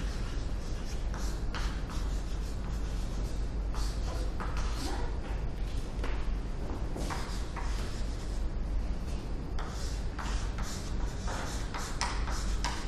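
Faint scratching of writing by hand goes on continuously, a dense run of short, rough strokes with no pauses.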